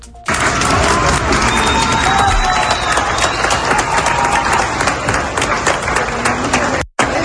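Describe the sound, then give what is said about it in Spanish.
A crowd claps and cheers for emergency rescue teams returning to an airport in Venezuela. Dense applause with scattered shouts runs steadily for several seconds and cuts off abruptly near the end. “A los equipos de emergencias los esperan entre aplausos y lágrimas”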